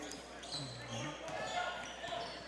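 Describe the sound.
Basketball dribbled on a hardwood court during a boys' high school game, Exeter against Twin Valley, with a few muffled bounces under steady crowd noise and background voices.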